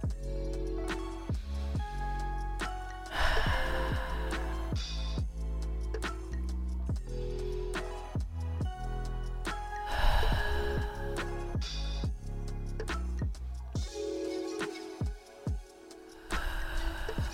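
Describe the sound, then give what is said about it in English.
Slow, deep breaths are taken during a relaxation exercise, a few long, airy inhales and sighing exhales spaced several seconds apart over soft, steady background music. “And I want you to take 5 deep breaths.”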